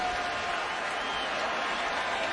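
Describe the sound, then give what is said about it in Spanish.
A baseball crowd cheers for its batter during a game, a steady, dense roar of many voices that holds at an even level throughout with no distinct peaks. “El público aquí animando a su bateador.”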